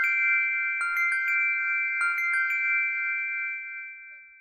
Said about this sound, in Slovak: Čo to bolo? Zvonček. Zvonček kráľa škriatkov. Skúsim. Teraz sa presvedčím.